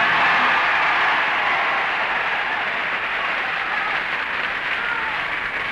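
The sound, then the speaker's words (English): Sustained audience applause on a talent show, judged by a clap-a-meter: a loud, dense, even wash of clapping that holds steady throughout. “The audience reaction indicator shows the winner tonight to be Ingeborg Nordquist. The same clap-a-meter gimmick was used on Queen for a Day,”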